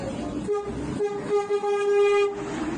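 A train horn sounds as a train arrives at Veresk station in Iran, several sustained, bright, tonal blasts with short breaks between them over a steady rumble.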